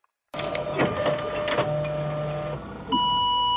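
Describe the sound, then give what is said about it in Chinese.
A fax machine prints out a picture, starting abruptly with a steady mechanical whirring buzz and rattle. A thin high electronic tone joins near the end. “准备再次投入到选择酒店中的大战时，传真机突然响了。小超好奇地走到传真机边上，一张奇怪的图片被打印了出来。”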